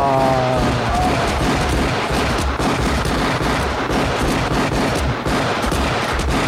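Rapid automatic gunfire in a video game as a magazine is emptied. A long, unbroken, dense stream of shots stays loud and harsh from start to finish.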